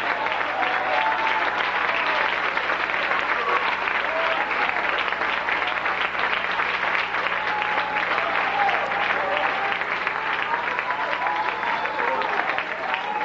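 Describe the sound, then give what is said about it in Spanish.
Sustained applause from an audience during a church sermon, a dense, steady wash of many hands clapping that holds at an even level for the whole stretch without pause. “Un aplauso grande a cielo.”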